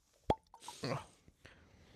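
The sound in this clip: A single sharp pop sounds as a bottle is opened while a Dark and Stormy cocktail is being made. The pop is fairly quiet and is followed by soft, brief voice sounds and faint rustling.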